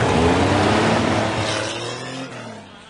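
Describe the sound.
A car drives off, its low engine hum rising slightly in pitch near the end as the sound steadily fades over about three seconds.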